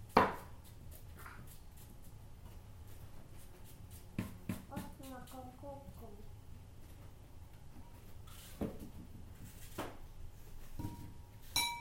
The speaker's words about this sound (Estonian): Ma lõikan päris väikseks, sa võid ka üritada täitsa väikseks lõigata.